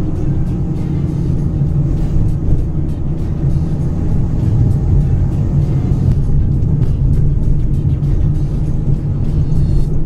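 Steady low road and engine rumble of a car driving slowly, around 30 to 40 km/h, along small roads, a continuous dense drone that stays even in loudness throughout, with no voices.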